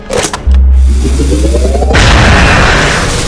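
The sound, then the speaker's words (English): Sci-fi laser gun firing a beam: a heavy low boom and rumble, then a warbling tone rising in pitch that breaks into a loud, sustained noisy blast. “The black beam shot forward and bent slightly to the right, aided by the memory of the laser sight.”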